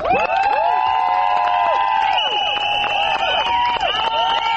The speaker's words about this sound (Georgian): აი ასეთი შეძახილების და სასწვენების ხმის ფონზე მოითხოვდნენ პარლამენტის წინ შეკრებილი ქალების საკუთარი უფლებების დაცვას.